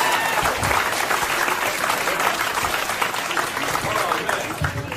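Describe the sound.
Loud, continuous applause from the audience at a Chicago comedy roast battle, many hands clapping in a dense, even wash that holds for the whole stretch.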